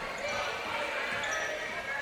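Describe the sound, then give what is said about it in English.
A basketball is dribbled up the floor during a high school girls' game between Madison and West Olmos. Soft, repeated bounces sit under steady crowd noise and a commentator's talk. “And she'll dribble it into the front court.”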